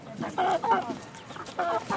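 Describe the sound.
Chickens clucking at a family house: many short, throaty clucks come in uneven bursts, fairly loud and busy, with no voices clearly heard.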